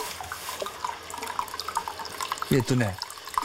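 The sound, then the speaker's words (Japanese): Hot spring water pours into a footbath, a continuous splashing and gurgling flow with brief louder bubbling toward the end and faint voices in the background. “じゃあ足湯をやります。”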